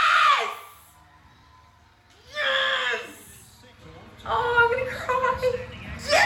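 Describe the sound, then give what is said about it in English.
Excited screaming and cheering break out in three loud waves of high-pitched shrieks and shouting voices, with quieter gaps between them. “I'm just warning you, I'm about to scream.”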